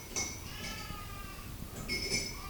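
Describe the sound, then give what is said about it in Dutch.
A spoon stirs in a container, giving faint, light metallic clinks. A few scattered taps sit over a low, steady background hiss. “Nee, nu kan je gewoon roeren, ja.”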